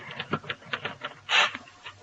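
Typewriter keys tapping as an editorial is typed: a quick, uneven run of faint clicks, with a louder burst near the end and no voices.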